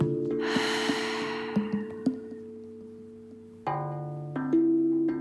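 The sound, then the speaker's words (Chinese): A slow, breathy exhale through the mouth during a bedtime breathing exercise swells softly and then trails off, over steady sustained background tones. “嘴巴慢慢的吐气。吸气，再慢慢的吐气，”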